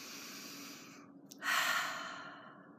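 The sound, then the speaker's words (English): A slow, easy breath: a soft, steady airy hiss that swells into a fuller, gentle exhale and then fades, faint throughout. “Take a breath, just a nice, easy breath.”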